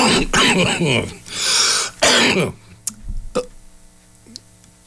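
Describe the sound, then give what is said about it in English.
A few harsh coughs and throat clearing in quick succession, loud and raspy, followed by near quiet with faint scattered clicks. “I just had to cough.”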